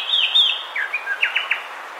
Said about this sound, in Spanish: Escuchamos al cucarachero sepia, que mide unos 17 centímetros y tiene el plumaje marrón oscuro con garganta blancuzca y marcado barrado oscuro en las plumas del vuelo y la cola.